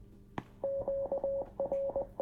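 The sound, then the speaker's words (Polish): A radio sounds Morse code spelling 'off' as it switches off. After a sharp click, a steady mid-pitched tone pulses in a pattern of short and long beeps with brief gaps. “Było słychać, to generuje te sygnały radio. Tak. To było off w alfabecie Morsa.”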